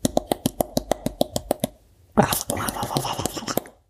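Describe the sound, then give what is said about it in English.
Teeth rattle for ASMR in a rapid, evenly spaced run of sharp little clicks lasting about a second and a half. After a short pause comes a louder, denser burst of rustling noise. “Welcome to ASMR Teeth. I'm going to rattle my teeth for you for a bit.”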